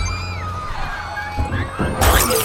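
A shield breaks in a video game with a sudden bright crunching smash near the end, over tonal game music and a few low thumps.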